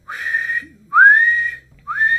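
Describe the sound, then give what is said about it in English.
Guards blowing whistles, three shrill blasts separated by short gaps, each gliding slightly upward in pitch; the last one is cut off at the end. “as guards around you are blowing whistles.”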